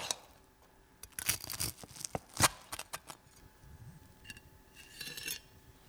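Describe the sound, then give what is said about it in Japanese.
A knife cuts through a crispy fried chicken cutlet, making many dry, crunchy crackles in irregular bursts with short pauses between them. “チキンカツを食べやすい大きさに切ったらお皿にのせて、”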